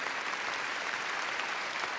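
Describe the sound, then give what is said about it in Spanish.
An audience claps in dense, sustained applause during a church sermon, even and unbroken throughout with no voices standing out. “Denle un fuerte aplauso a nuestro Señor.”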